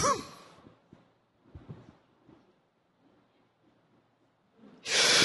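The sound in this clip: A person holds their breath and then draws it back in. A short breathy rush opens a long, near-silent hold broken only by faint small sounds, and a loud, rushing inhale ends it.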